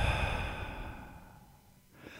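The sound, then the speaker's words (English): A slow, deliberate breath out during a guided relaxation exercise: a soft, airy rush of exhaled air that starts full and gradually thins and fades over about two seconds, heard alone without talk. “Breathe in. And hold it. Now breathe out.”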